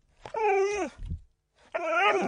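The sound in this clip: A dog vocalizes with drawn-out, moaning whine-like calls: two long tonal cries separated by a brief low grumble, fairly soft and with no talk over them.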